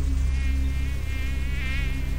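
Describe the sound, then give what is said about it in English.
A swarm of large blood-sucking insects buzzes over a marsh in the summer heat, a dense continuous droning whine with wavering pitch, steady and loud throughout, with no voices. “Here you find a green zone, putrid, nauseating, where thousands of insects move around, where thousands of horrible marsh plants grow under a suffocating sun.”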